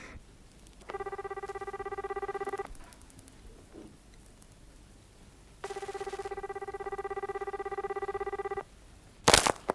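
A telephone rings with two long, buzzing trills separated by a quiet pause, followed by a brief sharp clatter at the end.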